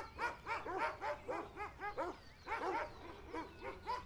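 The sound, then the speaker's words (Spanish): A dog barks many times in a quick, fairly regular rhythm. The sharp, fairly faint yaps come in two runs separated by a short pause. “Los ladridos son muy frecuentes, no son de los que más me gustan.”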